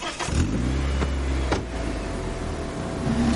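A car drives away after people get in. The engine hums steadily and loudly at a low pitch, with a few brief knocks early on and a slight swell at the end.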